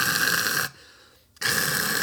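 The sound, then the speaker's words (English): A man imitating his own snoring: a loud, harsh rasping noise, a short near-silent break, then the rasp resumes abruptly. “yeah, that wasn't a page break. That was actually what I sound like when I snore. That wasn't a malfunction in the podcast audio. That's literally what I sound like.”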